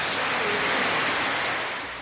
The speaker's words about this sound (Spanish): El agua bajaba con tantísima fuerza que se ha llevado corriente abajo los coches que estaban aparcados.